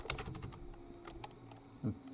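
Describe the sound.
Typing of a username and password into a login form on a computer keyboard produces a few soft, irregular keystroke clicks over a low, quiet background.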